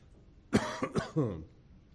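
A man coughs from a tickle in his throat: a short, faint burst of a few rough coughs in quick succession, with no speech.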